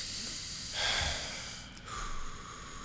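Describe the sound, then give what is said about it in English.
A deep breath drawn in and let out, heard as a swelling breathy rush of air that peaks and slowly fades, then a second, softer airy puff, set against a steady hiss with no talking. “Now, let me take a deep breath.”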